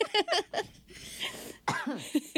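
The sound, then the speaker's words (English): Coughing from one person: a few short, harsh bursts in quick succession, a brief pause, then more coughs. “Get my coughing out of the way.”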